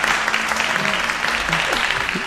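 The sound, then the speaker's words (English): A crowd breaks into loud, dense applause, the clapping steady and unbroken for over two seconds while a voice is faintly heard through it. “Whoa, the crowd loves it.”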